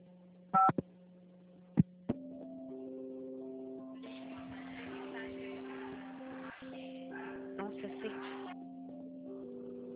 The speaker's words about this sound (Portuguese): Eu vou passar a ligação para ela, tá?